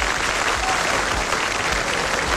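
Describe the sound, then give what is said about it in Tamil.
Audience applause for a singer on a music show, a thick, even wash of clapping that stays loud and steady from start to finish. “அவருக்கு ஒரு பெரிய பலத்த கைத்தட்டல் கொடுத்துடலாமா?”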